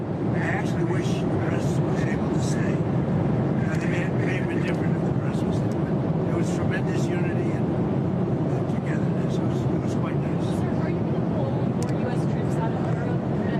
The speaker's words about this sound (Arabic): معذرة، الصوت مشوش جدا في الطائرة. الصوت مشوش جدا، لا يمكن الاستماع إلى شيء.